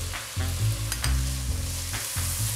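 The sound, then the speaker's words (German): Root vegetables and tomato paste fry in a pot with a steady, dense sizzle and crackle, with stirring sounds mixed in throughout. “Im selben Topf wird Wurzelgemüse mit Tomatenmark angeröstet.”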